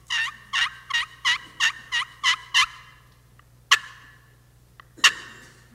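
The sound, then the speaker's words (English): Hen turkey yelps made on a slate turkey call: eight evenly spaced, raspy, high notes in a quick steady rhythm. After a pause come two sharp, separate clicks. “you wanted to lure a big gobbler in, you would use one of these calls. And supposedly, this is the sound of a hen.”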